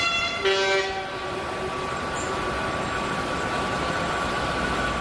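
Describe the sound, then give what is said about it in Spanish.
Trains at Atocha railway station: a brief horn blast sounds near the start, then a steady, dense rail rumble and wide hiss continue to the end. “Aquí en Atocha”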